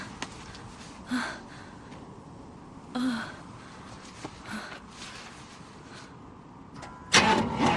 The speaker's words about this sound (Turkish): Kontağa uzanabiliyor musun? Bir dene bakalım. Basılı tut, tamam mı?